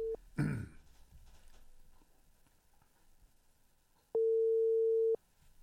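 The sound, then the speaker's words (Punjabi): A telephone call tone while redialing a dropped call: a steady mid-pitched beep lasting about a second, preceded by a short clipped fragment of the same tone, over faint background hiss. “ਮੈਂ ਉਹਨਾਂ ਨੂੰ ਇੱਕ ਵਾਰੀ ਦੁਬਾਰਾ ਕਾਲ ਕਰਕੇ ਵੇਖਣਾ, ਆਈ ਤਾਂ ਸੀ ਉਹ ਕੱਟੀ ਗਈ ਆ।”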